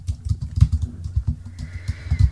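Fingers type an email on a computer keyboard, giving an irregular clatter of soft keystrokes with brief pauses. No talk is heard.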